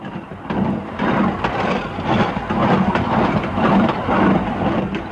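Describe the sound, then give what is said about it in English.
A narrow-gauge railroad train climbing a mountain track from Skagway up over the White Pass, giving a loud, steady rumble with rhythmic chugging pulses and wheel clatter, heard alone. “And that is the sound of another train, today's narrow-gauge railroad as it climbs the track that runs from Skagway up over the White Pass Trail of 98”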